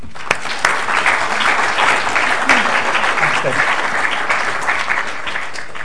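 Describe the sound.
Audience applause welcoming a speaker onto the stage at an evening talk, a dense, steady wash of clapping that holds at an even loudness for about six seconds.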